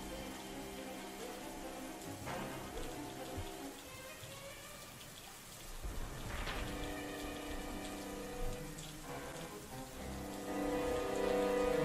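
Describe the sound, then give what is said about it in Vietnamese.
Rain falling on a street: a steady, soft hiss of drops spattering the surface, quiet and continuous throughout with no voices. “Những dòng máu từ cái xác hòa vào những dòng nước mưa, biến cả một đoạn đường thành một vũng đỏ thẫm”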